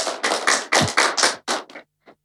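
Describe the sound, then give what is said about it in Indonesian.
Group hand clapping at a school performance event, a quick run of loud, evenly spaced clap bursts that stops abruptly, followed by one faint, isolated final clap. “Tepuk tangan teman-teman.”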